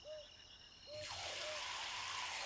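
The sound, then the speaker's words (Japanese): Hot water rinses hair during a hair-washing roleplay: after a faint, quiet start, a steady rushing spray of water begins suddenly and continues evenly to the end. “一度お湯で流しちゃいますね。泡が入らないように目を閉じてください。”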